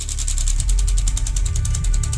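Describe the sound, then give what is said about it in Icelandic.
An automatic split-flap arrivals board hanging over an airport arrival hall clatters as its flaps turn over in a rapid, steady run of crisp clicks. The sound stays loud throughout, with a low rumble underneath. “Þá fór sjálfvirt flettiskiltið aftur á stað.”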